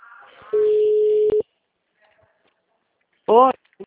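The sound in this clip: A telephone busy tone after a dropped call: one long, steady mid-pitched beep and a short second pulse, then silence before a brief voice.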